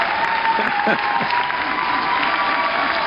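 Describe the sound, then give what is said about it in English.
Audience applause rises as a steady wash of many clapping hands, with a faint sustained tone and a voice briefly audible over it. “the crowd is going wild”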